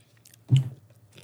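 A single crunchy bite into a chili-flavored Thai snack: one short, muffled crunch that fades quickly, with faint rustling around it.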